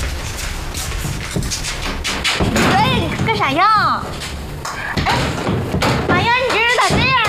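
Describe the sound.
Knocking on a locked door: several dull thumps come among voices as people talk and argue.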